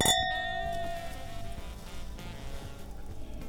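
Glasses clink together in a toast over barrel-aged liquor: one sharp strike at the start, followed by bright ringing overtones that slowly fade, with no voices.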